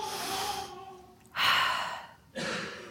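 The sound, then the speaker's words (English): A deep breath taken during a quiet spoken affirmation. It comes as soft, breathy rushes of air in a few long surges, with short pauses between them and no talk. “Sometimes I just put my fingers here and I take a deep breath.”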